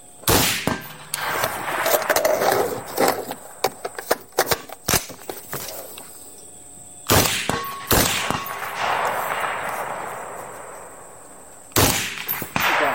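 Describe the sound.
Rifle shots fired at long range: many sharp, loud cracks with a ringing metallic clang, spaced irregularly, some trailing off in long decaying tails, with no talk.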